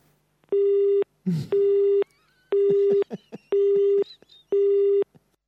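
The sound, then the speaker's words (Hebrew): Telephone busy signal after a call is hung up: five even, steady mid-pitched beeps, each about half a second long, separated by short gaps that hold brief faint other sounds. “הוא כבר מתחיל לנתק עלינו את הטלפון, הראובן לדיאנסקי הזה”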